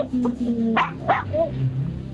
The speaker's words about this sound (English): You got two dogs there, and they're both barking at the same time.